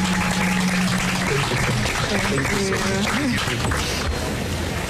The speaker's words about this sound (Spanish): Un aplauso, por favor, a Jasmine, una bienvenida como la que se merece eh, nuestra medallista de oro boricua.